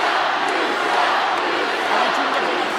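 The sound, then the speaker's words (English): Wrestling arena crowd at No Way Out 2003 roaring in anticipation of Brock Lesnar's one-on-one match with Kurt Angle, a dense, steady wall of noise with no breaks or distinct voices. “Well, this crowd is electric in anticipation of Lesnar.”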